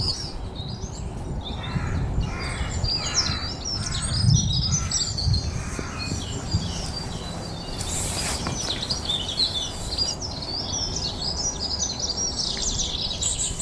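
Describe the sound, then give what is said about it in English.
Outdoor forest ambience with crows cawing and other birds chirping, set against a steady bed of broad background noise for the whole stretch. “Time to record the first forest sound from Merrymead Forest.”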